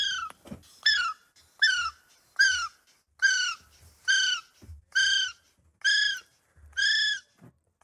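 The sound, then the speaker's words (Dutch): Kiwi bird calls ring out as a series of eight shrill, harmonic-rich whistles, each short and slightly falling at the end, evenly spaced with brief silences between them and no talk. “Avifauna komt vandaag naar buiten met het nieuws dat er een hele bijzondere vogel is geboren in Nederland. Een kiwi.”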